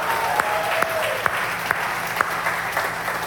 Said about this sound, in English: Would you put your hands together and welcome all?